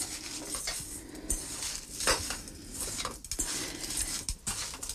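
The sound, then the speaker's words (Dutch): Crumble topping is mixed in a bowl with irregular scraping, rustling and light clinks over a continuous low background. “Dus ik meng hier voort de krumbel.”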